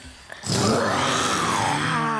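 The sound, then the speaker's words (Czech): People imitate a tiger's growl with their voices, giving one long, loud, rough roar that starts abruptly and holds steady to the end, its gravelly tone swelling and easing slightly in pitch. “Umí ještě někdo nějaké speciální zvíře předvést? To taky někdy zkoušíme. Co tygra? Tygra jsme zkoušeli taky. Tak pojďte, uděláme pořádního tygra.”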